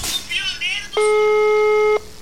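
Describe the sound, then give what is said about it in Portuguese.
A single steady ringback tone of an outgoing telephone call, lasting about one second, with brief voices before it. “Segundo toque, terceiro toque. Terceiro valendo toque.”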